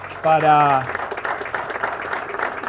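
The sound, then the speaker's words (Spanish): Audience applause breaks out at a public speech right after a short spoken phrase, settling into steady, dense clapping that continues to the end. “Pido un fuerte aplauso también”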